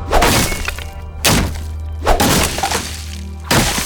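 Swords crashing down onto hard wooden inn tables: four heavy, sharp impacts, each with a short rough tail, spaced roughly a second apart over a low steady hum.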